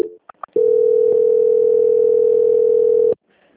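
A telephone line tone sounds during a bank call being transferred: a few brief blips, then one loud, unbroken mid-pitched tone holds for about two and a half seconds before cutting off.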